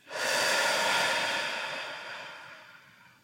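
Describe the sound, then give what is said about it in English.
A single deep breath during a guided relaxation exercise: an airy, breathy rush swells quickly, then fades slowly over about three seconds, alone with no talk. “Inhale again. And exhale again.”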